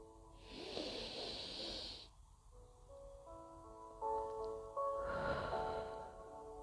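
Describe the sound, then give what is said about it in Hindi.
Breathing in through the nose during a guided breathing exercise, heard as two long, soft, airy breaths, one near the start and one later, over gentle sustained background music. “फिर से नासिका से सांस भीतर”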